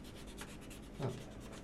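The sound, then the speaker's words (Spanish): A rubber eraser rubs over a pen mark on paper, making a faint, steady, scratchy friction with one slightly louder stroke near the end. “Y vamos a probar con la goma. A ver si se borra.”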